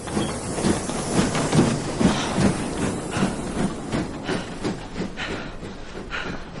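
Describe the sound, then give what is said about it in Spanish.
A train departs a station platform with a fairly quiet, steady rush of hissing noise and a regular rhythmic clatter of wheels that continues throughout. “Llega Arthur mientras el tren se va”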